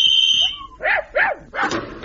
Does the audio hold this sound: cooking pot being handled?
no